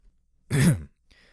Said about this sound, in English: He tapped my shoulder and coughed with a hint of amusement.